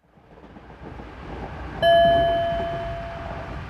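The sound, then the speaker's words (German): Steady low rumble inside an ICE high-speed train on the Frankfurt–Paris route, slowly building, then a single bright electronic chime rings out and lingers as the rolling hum carries on beneath it. “Sie sitzen im ICE Frankfurt-Paris.”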